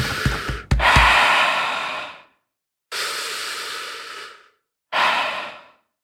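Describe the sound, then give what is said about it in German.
Deep human breathing in and out, a person slowly demonstrating the rhythm for someone else to follow: three long, loud, airy breaths, each a broad hissing rush separated by short silences, the last one shorter. “Jetzt atme, wie ich atme.”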